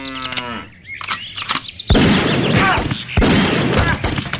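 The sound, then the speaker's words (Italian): Two sharp gunshot blasts, fired by a cowboy smoking beside his pickup truck, each followed by a loud, noisy rumble. They come after a brief, bellowing voice-like sound at the start. “E poi mi ha sparato nei testicoli.”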